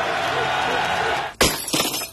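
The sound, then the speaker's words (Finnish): A car windshield shatters in one sudden, sharp crash, followed by a short spray of tinkling glass fragments. The crash cuts in after a steady sustained background sound that runs for over a second. “Tuulilasi rikki”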